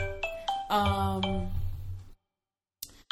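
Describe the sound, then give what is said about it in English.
Mobile phone ringing: a few bright chiming notes in a short melodic phrase, moderately faint, cut off abruptly into silence. “Oh, my gosh. I'm so sorry, y'all. That's my phone. I thought it had it on vibrate.”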